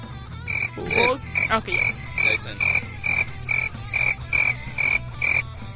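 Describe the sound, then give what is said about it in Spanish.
Crickets chirping in a steady, evenly spaced series of many short, bright, high-pitched pulses, fairly loud and heard alone over a low background rumble. “Esos grillos, por favor, grillos.”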